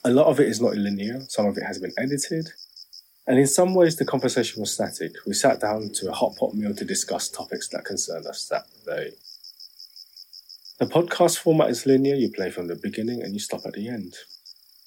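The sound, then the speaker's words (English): Chirping crickets recorded in Hong Kong, a steady, thin, high trill that runs unbroken beneath continuous talk, carrying on faintly through the pauses between speakers. “So all the sounds you hear are from there. The tweeting birds, rustling bamboo leaves, chirping crickets, buzzing cicadas,”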